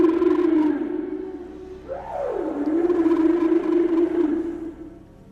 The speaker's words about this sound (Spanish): ¿Eso es un canto de ballena? ¡Pero qué barbaridad!